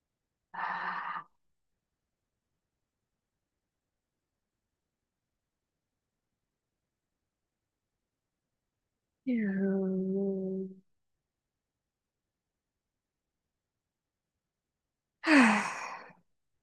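Breathing sounds voiced as three short sighs, each alone and separated by long silence. The middle exhale is longer and tonal and slides downward at its start, and the last is a brighter, breathier burst.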